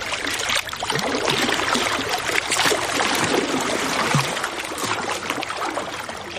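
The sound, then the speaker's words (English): Lake Michigan waves splashing against the rocks at Promontory Point in Chicago, a continuous sloshing and spattering of water that stays fairly loud and even throughout, with no voices. “So it's no surprise that the sound you're hearing right now is one of our most popular requests. It's the soothing sound of Lake Michigan.”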